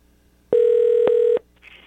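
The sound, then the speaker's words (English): Telephone tone on an outgoing call to a phone in Wisconsin: a single steady mid-pitched tone holds for just under a second and cuts off, followed by a brief faint higher hiss. “That's the sound of his phone.”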